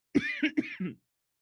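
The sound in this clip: A quick run of a few harsh, voiced coughs and choking sputters, loud and alone, all packed into under a second.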